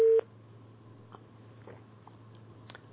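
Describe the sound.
A single short, loud electronic beep sounds as a caller's telephone line connects. It is followed by a low, steady hum and faint line noise with a few small clicks.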